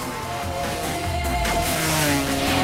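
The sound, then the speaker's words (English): Motorbikes racing in a chase down a narrow dirt street, with a loud, continuous, dense roar of revving engines that grows slightly fuller toward the end. “Now, racing down a narrow dirt street, Mariachi turns and fires back at the bike riders who are giving chase.”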